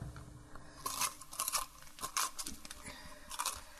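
Faint scraping and crunching as a small spoon scrapes out the gills of a mushroom, heard as several short, uneven bursts.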